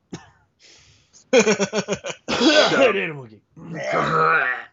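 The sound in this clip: Throat clearing from a person who has been sick: a run of several short, rough, grunting pulses, then longer strained and groaning vocal sounds.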